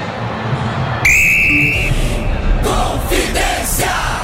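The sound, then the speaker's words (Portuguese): A referee's whistle ends the first half of a Brazilian Championship football match between Cruzeiro and Mirassol at the Mineirão. One long, steady, high-pitched blast sounds over a constant roar of crowd noise. “Apita pela última vez no primeiro tempo, Lucas Casagrande, pelo Campeonato Brasileiro.”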